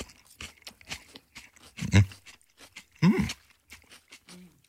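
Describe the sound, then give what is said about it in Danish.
Crunching bites into a whole cucumber seasoned with chili and garlic: two loud, sharp crunches stand out among quieter chewing and handling noises. “Nogle gange har man lyst til at spise en hel agurk. Passer det? Er I klar? Spis ja, her.”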